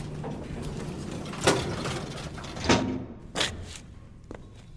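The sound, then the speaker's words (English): A door opening on the 27th floor of a building: a steady mechanical whirring with a few dull thuds spaced through it, easing off toward the end. “Door's opening.”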